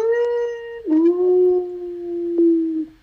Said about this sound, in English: of a group of dire wolves, which the creature had at one point summoned by flipping into a wolf form and howling, some kind of summoning howl.